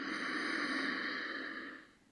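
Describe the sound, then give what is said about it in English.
A single slow, deep breath drawn in through the nose: a steady, airy hiss that holds evenly for nearly two seconds, then tapers off and fades. “as we take another deep breath in through the nose”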